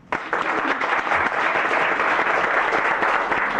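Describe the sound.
Applause breaks out abruptly in a legislative chamber to welcome a guest, a dense, steady clapping that holds at even loudness throughout.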